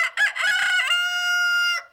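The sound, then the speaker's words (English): A rooster crows once, loud and alone: a few choppy opening notes, then a long, bright, sustained tonal call that holds steady before cutting off sharply. “it may seem like they all start crowing at once, but it turns out that the first bird to call isn't just early, he's the boss.”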